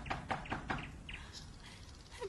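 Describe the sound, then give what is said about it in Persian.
Caged canaries chirp and sing in a quiet series of short, bright calls, clustered near the start and then scattered and fainter. “بخونید. میدونم به شادی نوک به ارزن و آب نمیزنید. میدونم تو این قفس زندونی هستی. قناریا”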